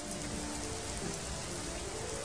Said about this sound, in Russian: А тут дождик начался. Звонкий такой дождик, веселый, теплый-притеплый.